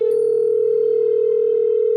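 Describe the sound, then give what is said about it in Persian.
Telephone dial tone as a call is placed: a loud, steady, unbroken tone that holds at one pitch throughout. “شروع کردم به کرتیس زنگ زدن که فقط اذیتش کنم”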